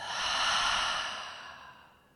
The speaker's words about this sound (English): Inhale. Open the mouth. Exhale it out.